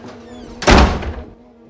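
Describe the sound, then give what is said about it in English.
A chair knocked over in a hurried rush toward a door: one loud, heavy wooden thunk with a short resonant tail that fades within about half a second. “He knocks over a chair, rushing to the door.”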